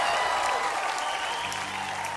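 Dense, continuous applause from an audience welcoming performers onto the stage at a Hanukkah-themed show. The clapping stays loud throughout, and a low sustained tone joins in near the end.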